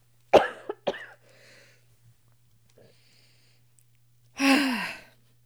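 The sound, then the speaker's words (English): Someone coughs and chokes: three quick, sharp coughs close together, a quiet stretch with faint breathing, then a longer, harsh, rasping burst of choking breath. “I'm just choking on myself. Don't die. I forgot how to breathe.”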